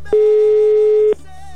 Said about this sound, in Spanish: Ya está sonando, mi querido Juan, el teléfono de tu tocayo.